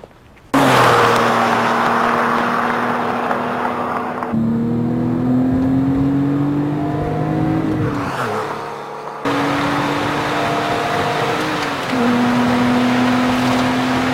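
Car engine droning steadily as it drives down a highway at around 100 miles an hour, with a tonal whine that shifts pitch a few times over a constant road roar and no voices.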